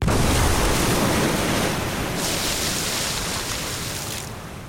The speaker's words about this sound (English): The resulting explosions caused the water to geyser up and splash back down into a churning mass of white bubbles.